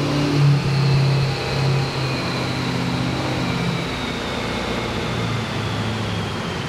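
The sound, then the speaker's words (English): A truck engine with big tires and a turbo setup labours hard during a mile-per-gallon test run, a loud, steady droning roar with a low rumble that eases slightly after the first couple of seconds. “truck working hard to get through this test here. It's going to be tough on him with those big tires and that turbo setup”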